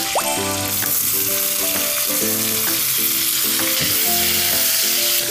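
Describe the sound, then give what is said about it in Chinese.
Bamboo shoots stir-frying with chili and garlic in a wok give a loud, continuous sizzle. Several sharp clatters from stirring break through it. “我们把小米辣跟蒜末倒进去，炒到这个蒜香味出来的时候，我们就把竹笋倒进去。”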